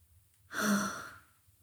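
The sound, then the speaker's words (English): A single deep breath ending in a full, audible exhale makes a soft breathy whoosh that swells quickly and fades over about a second, quiet and alone. “Take a deep breath in and exhale fully.”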